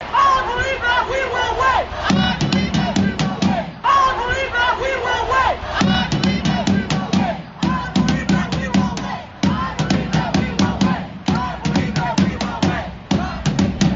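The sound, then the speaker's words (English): Thousands of peaceful protesters chant outside the Dane County Jail in Madison, Wisconsin, the crowd shouting in short, regularly spaced bursts with brief gaps between them, a loud, rhythmic, steadily repeating chant. “That's the sound of thousands of peaceful protesters assembled outside of the Dane County Jail.”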